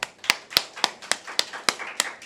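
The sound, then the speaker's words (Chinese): Hand clapping from a church audience on Easter, in unison: a steady series of evenly spaced, crisp claps that are fairly faint, with short gaps between them. “弟兄姊妹，今天是复活节，先给一些掌声我们的主先吧。”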